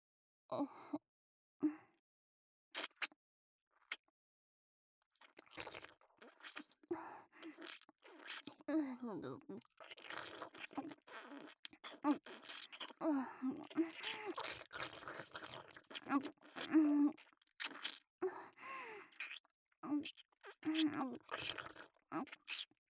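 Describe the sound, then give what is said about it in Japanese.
Wet licking and mouth sounds, many soft irregular smacking and slurping bursts of varying loudness, fairly quiet overall, with no clear speech. “わかりました。じゃあ舐めさせていただきますね。”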